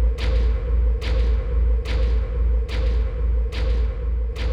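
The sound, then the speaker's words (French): Slow, evenly spaced heavy knocks, presented as a rapping spirit answering questions at a séance, each a dull thud over a steady low hum. “Sept coups sont frappés au lieu de six.”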